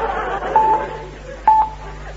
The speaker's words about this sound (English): Oh, I wondered why he kept telling me the time. I'll dial again.